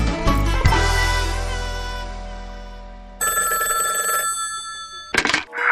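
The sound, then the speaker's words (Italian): A telephone bell rings for an incoming call: a sustained, bright ring burst that follows a loud, slowly fading sound. A short clatter comes near the end. “Kappa e Drago hanno appena ricevuto una telefonata minacciosa”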